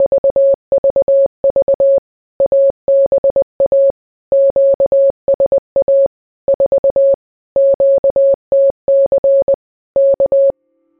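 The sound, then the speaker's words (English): Morse code tones from a stay-behind agent's radio reply in occupied Alaska: a steady mid-pitched tone keyed on and off in many rapid groups of dots and dashes, heard alone with short gaps between groups. “That first response from the agent in occupied Alaska would sound like this.”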